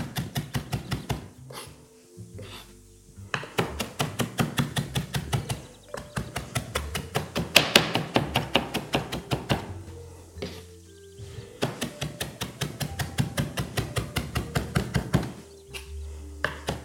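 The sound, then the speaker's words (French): Knife finely chopping herbs on a cutting board, rapid steady knocks in several long bursts separated by short pauses. “Alors, je termine en hachant très finement mes herbes”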